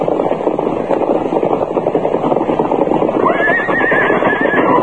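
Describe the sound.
A horse whinnies in a long, quavering call near the end, over loud, continuous hoofbeats and rumbling movement.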